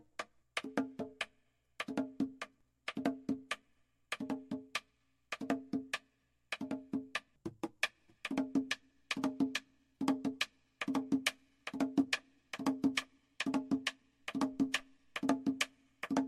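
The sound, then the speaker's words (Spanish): The cross drum (tambor cruzado) of culo e' puya plays on its own in a steady repeating pattern of sharp clustered strokes, with a resonant low tone on each hit and short pauses between the many groups. “Tambor cruzado de culoepuya se ejecuta de esta manera.”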